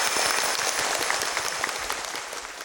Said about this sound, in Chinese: 让我们再一次以热烈的掌声，谢谢师父为我们组织这个中秋的欢乐。